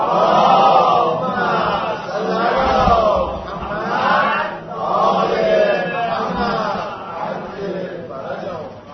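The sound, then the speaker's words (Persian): A crowd recites salawat in unison during a religious sermon, many voices blending into loud, steady chanted phrases that swell and ease in repeated waves across the whole stretch. “یک صلوات دیگه محبت بفرمایید.”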